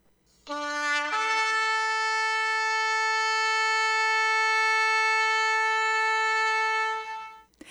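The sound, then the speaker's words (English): A shofar blown in one long sustained note, rich in harmonics, opening with a short lower tone that steps up and holds steady for about six seconds before stopping abruptly. “And this is what a shofar sounds like.”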